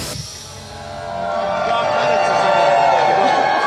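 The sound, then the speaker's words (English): Rowdy crowd at a CPAC conference, a dense, steady murmur of many voices that swells louder after the first second and stays loud to the end. “Welcome back. It's CPAC Friday. They're pretty rowdy. They've been sitting watching speeches, doing workshops.”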